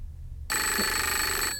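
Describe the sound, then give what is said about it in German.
A telephone rings in a quiet bedroom at night. After a short silence, one steady, bright, buzzy electronic ring sounds loudly for about a second and then stops. “War das nicht... Telefon.”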